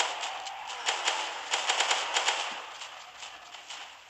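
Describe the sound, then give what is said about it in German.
Rapid AK-12 rifle gunfire in the Roblox video game: many quick, sharp shots in uneven bursts, fairly faint and with no voices over them. “Ah! Ich hab eine Waffe. Ah, eine AK-12er. Die ist eigentlich ganz schön schlecht.”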